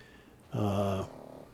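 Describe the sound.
A sleeping dog rolls over and gives one low, faint groaning grunt lasting about half a second. Quiet stillness follows.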